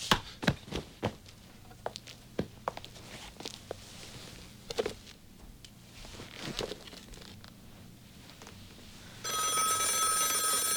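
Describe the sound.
Telephone ringing with a bright, trilling bell that starts near the end and keeps going. Before it, many sharp taps and knocks sound irregularly over a quiet background.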